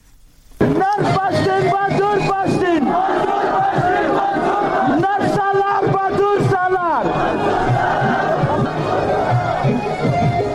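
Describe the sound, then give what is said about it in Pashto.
Crowd chants slogans at a Pashtun Tahaffuz Movement rally in Rustam Bazaar, Wana, South Waziristan. Many voices shout loud, rhythmic, repeated phrases in unison, sustained throughout after a brief quieter opening. “دا جاغونه د پښتون ژغورنې غورځنګ د غي جلسې دي چې 13 ورځ په 9 اپریل د سویلي وزیرستان واڼه رستم بازار کې په میرزا عالم پمپ باندې وشوا.”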